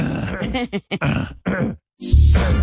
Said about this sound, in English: is clearing his throat cause he's got phlegm. He tries to be silent, but everyone hears him. He's coughing so hard, sounds like he's hacking up a lung.